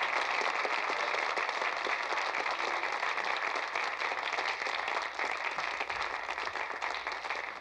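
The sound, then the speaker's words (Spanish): An audience applauds a performer with steady, dense clapping that continues unbroken and eases slightly toward the end. “Un aplauso para Francine Evans.”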